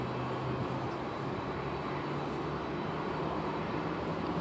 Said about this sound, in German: der Lufthansa wird jetzt hier gleich auf dem Rollweg die Triebwerke anlassen, um dann losrollen zu können Richtung Startbahn.